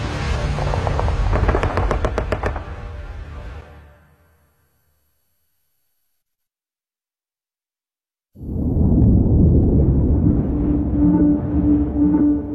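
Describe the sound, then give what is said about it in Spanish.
Bombs dropped on a target explode in a wartime D-Day scene: loud rumbling blasts with a rapid run of sharp cracks fade into silence, then another heavy, sustained roar of explosions follows. “¡Directo al blanco! Bombas fuera.”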